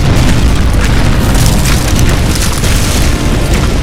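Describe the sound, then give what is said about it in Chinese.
Cannons bombard a mountainside with exploding shells, producing a loud, dense, continuous rumble of booms throughout. “炮弹只是飞过树梢，对勇士们毫发无损。而当时的大炮射程有限，只能轰炸到半山腰，对山上的部落丝毫没有任何的破坏力。”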